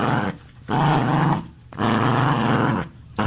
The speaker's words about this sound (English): That's my dog. That's my dog. Rhino, down, boy.